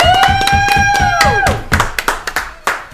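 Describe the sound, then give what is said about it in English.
Clapping from a live studio audience: loud, fast rhythmic claps under a sustained bright tone that slides down in pitch midway, then thinning into scattered separate claps. “Wow, that was loud. All right, thank you to the live studio audience.”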